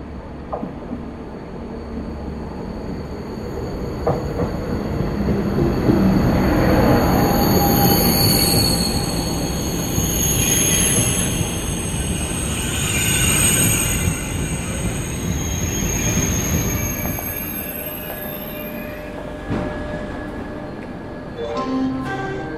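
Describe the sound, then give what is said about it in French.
A TGV high-speed train bound for Marseille-Saint-Charles pulls into a station with a loud, sustained rolling rumble. High, thin wheel squeals ring over it throughout, and the rumble swells and eases gently without a break. “Le TGV 5323 est à destination de Marseille-Saint-Charles, entre en gare.”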